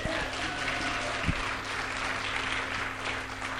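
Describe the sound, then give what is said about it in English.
Audience applause welcomes a guest speaker at a church service, with steady clapping from many hands over a low, constant hum. “Okay, let's put our hands together.”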